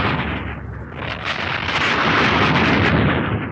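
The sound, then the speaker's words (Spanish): Explosions rumble in a loud, continuous roar, with broad booming blasts blending into one another rather than standing apart. The level dips briefly, then swells again and stays strong to the end, with no voices. “Después se escuchan otras explosiones menos violentas,”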